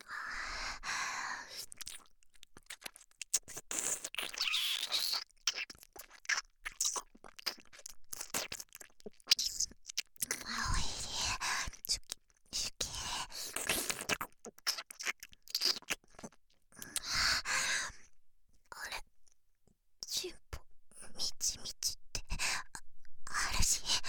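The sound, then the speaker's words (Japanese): Wet licking and mouth sounds of ear-licking ASMR, close and quiet, arriving in irregular bursts of soft smacks and slurps between whispering and gentle breaths. “飼い猫らしく耳なめてご奉仕だ。”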